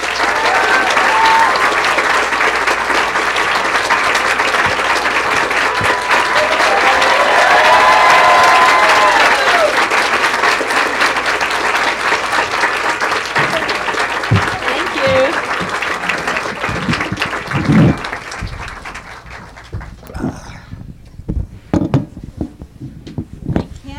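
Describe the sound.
Audience applause welcoming speakers to a stage: loud, sustained clapping with some cheering that holds steady, then thins and dies away near the end as a few last claps and talk take over.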